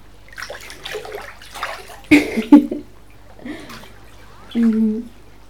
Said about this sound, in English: We're in the middle of a public swimming pool